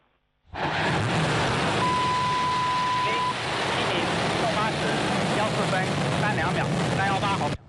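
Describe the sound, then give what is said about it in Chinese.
A Long March 7 Y11 rocket carrying the Tianzhou-10 cargo craft ignites and lifts off at Wenchang launch site, a sudden loud onset into a sustained, broad, crackling roar that holds steady. “8时14分，长征七号遥十一运载火箭点火起飞。”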